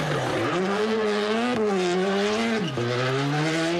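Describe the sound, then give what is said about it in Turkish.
A rally car races hard on a stage of the Turkish Rally Championship in Cappadocia, Nevşehir. Its loud, steady engine whine climbs in pitch, drops at two gear changes, then climbs again, with no voices. “Pazar günü Nevşehir'de Türkiye Ralli Şampiyonası vardı. Kapadokya'nın eşsiz manzarasında yapılan rallide pilotlar birinci olabilmek için direksiyona geçti.”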